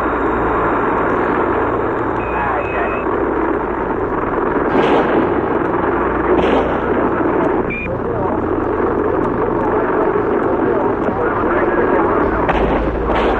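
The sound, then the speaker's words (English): Rifle shots superimposed on a Dallas police radio tape: a few sharp cracks, irregularly spaced, cut through a steady, loud bed of radio hiss and murmur. “The Dallas police radio tape, on which four rifle shots in the correct time sequence have been superimposed.”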